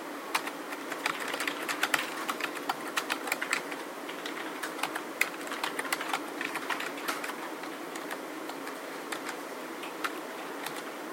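Rapid typing on a computer keyboard, a steady stream of many light, crisp key clicks with occasional sharper strikes, continuing without pause for about eleven seconds.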